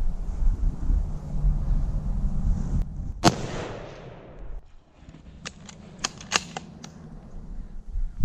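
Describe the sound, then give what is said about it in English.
A single gunshot fired at a deer while hunting cracks sharply against soft background noise and trails off in a brief decaying tail. A few quick, sharp clicks follow. “Okay, if you feel confident, squeeze off a shot.”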